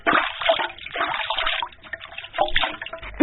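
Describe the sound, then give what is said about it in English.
Running water splashing over hands being washed, a fluctuating, gurgling stream with uneven surges. “I am brushing my teeth now. I am washing my hands now.”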